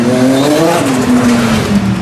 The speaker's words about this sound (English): And a nice V6 in there with a turbo, one big turbo.